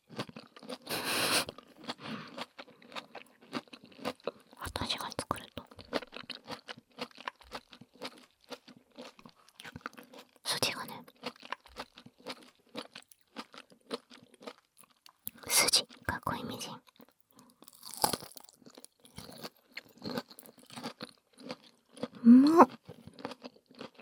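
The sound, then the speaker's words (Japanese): Crunchy asparagus being chewed: bursts of crisp crunching and biting come in irregular clusters, with soft speaking voices in between. “いただきます。すごい、アスパラに筋がない。”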